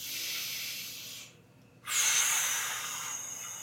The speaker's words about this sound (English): Step four. Take a deep breath.